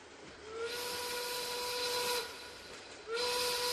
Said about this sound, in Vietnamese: Anh Minh, lên tàu đi. Tàu sắp chạy rồi.